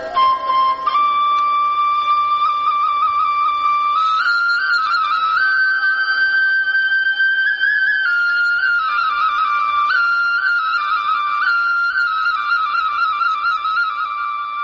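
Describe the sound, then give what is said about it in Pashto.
A shepherd minding a herd plays a flute while leaning against a large rock. It is a clear, breathy melody of long sustained notes that step up and down between a few pitches, played continuously and alone. “خو د دغه رمې شپونکي بیا دلته یوې لویې تیږې ته ډډه لګولې او شپېلۍ ژغوي.”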